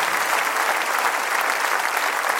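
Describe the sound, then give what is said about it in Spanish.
A church audience applauds during a Spanish-language worship service: a dense, steady patter of many clapping hands that runs without a break. “Aplauda a su Señor.”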